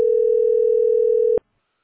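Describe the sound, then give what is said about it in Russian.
A telephone tone sounds as a single steady, mid-pitched beep that holds for over a second, then cuts off abruptly into silence. “Ну вот это звонок.”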